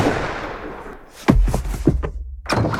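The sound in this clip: A gunshot cracks out partway through as one sudden heavy bang with a deep low thud. A few softer knocks and thumps follow in the seconds after.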